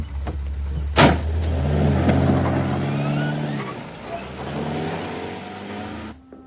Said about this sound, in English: Just get in the car.